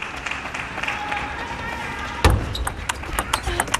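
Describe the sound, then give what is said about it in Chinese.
A table tennis serve by Sun Yingsha at a key moment of a match: one sharp ball strike is followed by a series of quick light clicks of the ball on the table, heard under a commentator's voice. “接下来是孙颖莎比较关键的一个发球，这个发球轮次很关键”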